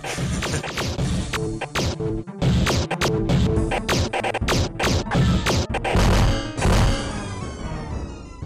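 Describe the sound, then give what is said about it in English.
Explosions in a video game as a ship is destroyed after its shields are gone: a dense run of many loud crashing, smashing blasts, then a rumbling tail that fades away. “My shields oh. are gone, and I'm probably gonna blow up any minute now. Oh, there he goes.”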